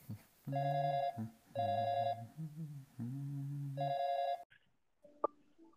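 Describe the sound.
On an outgoing telephone call, the line rings back with several sustained electronic tone bursts separated by short gaps. A faint click and quiet shuffling follow after the ringing stops.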